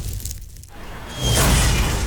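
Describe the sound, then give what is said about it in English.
A rogue space capsule smashes a roof and shatters a carport. A dense roar of noise dips briefly, then swells into a loud, sustained, rumbling crash. “Smashed roof. Shattered carport. Nothing like a rogue space capsule to bring you back down to Earth, Ajax.”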